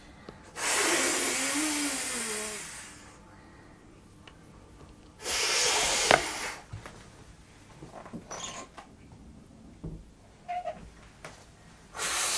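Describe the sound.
Inflatable swimming armbands are blown up in two long, airy, hissing breaths into the valve. Shorter, fainter puffs and small squeaks of the plastic follow.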